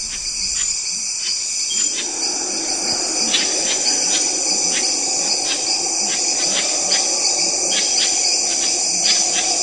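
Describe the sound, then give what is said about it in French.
Dense tropical forest night soundscape, dominated by a loud, continuous shrill insect drone with layered high whines and steady repeated pulsing chirps; the chorus thickens after a quieter first two seconds and then holds steady. “Il y a beaucoup de sons, et beaucoup de sons alors d'insectes, d'oiseaux, il y a des petites grenouilles là, qui sont très purs”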